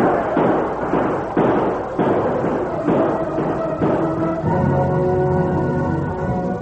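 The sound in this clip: Gunfire as mounted troopers open fire on outlaws and Sioux taking cover behind boulders: a rapid series of sharp, loud shots and thuds, about seven or eight in quick succession, followed by a lingering ringing tone, with no voices.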